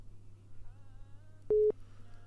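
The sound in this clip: A telephone tone sounds once after a failed call attempt: a short, loud, steady mid-pitched beep over a faint low hum.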